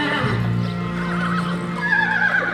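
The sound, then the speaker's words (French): A horse and a mare trot and neigh: loud whinnies ring out over a steady clip-clop of hooves at a trot, continuous throughout with no voices. “Le cheval et la jument montent au petit trot.”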